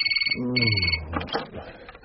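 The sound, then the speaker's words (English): A telephone rings with an incoming call: two short, warbling bursts of ringing with a brief gap between them, while a person talks over the ringing and keeps talking after it stops. “But we spoke of phone calls plural, didn't we? Here comes the next.”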